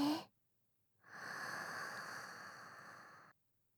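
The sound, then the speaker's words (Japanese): A deep breath drawn in through the nose, one long, steady, airy inhale lasting a couple of seconds, faint and heard alone before cutting off sharply. “まず大きく鼻から吸って”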